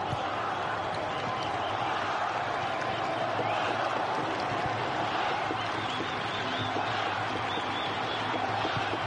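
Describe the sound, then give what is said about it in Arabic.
Egyptian fans cheering in a football stadium, a dense, constant crowd roar that stays level throughout while a voice talks over it. “شفت الجمهور المصري، اسمع الجمهور المصري”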